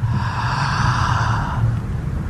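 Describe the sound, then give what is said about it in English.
A person breathes in deeply, making a long, loud, airy inhalation that fades after about a second and a half, with no talk. “So I want you to breathe in.”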